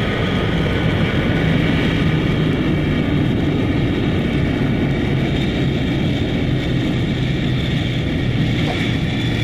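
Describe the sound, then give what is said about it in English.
An airplane lands smoothly and taxis on a runway. Its engines give a loud, steady roar with a dense low rumble and a thin high whine that holds constant throughout. “And a smooth landing it is. The aircraft is on the ground and is taxiing over Victory Field's golden runway toward its position at the Port of Glory.”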